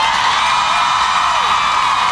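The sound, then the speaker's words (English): Crowd din from a large gathering of student protesters at a gun-violence rally in Washington, D.C., a dense, steady roar of many voices with scattered shouts and whoops running throughout. “As students apply pressure publicly, I'm amazed that I cannot see the end of this crowd here in D.C.”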